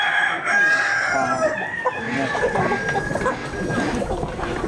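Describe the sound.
A flock of chickens crows and clucks. A rooster's harmonic crow rings out early, then overlapping clucks and squawks carry on busily to the end.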